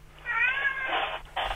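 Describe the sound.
A male house cat meowing, giving one drawn-out, whining meow with a wavering pitch. The sound is fairly soft and stands alone with no voices.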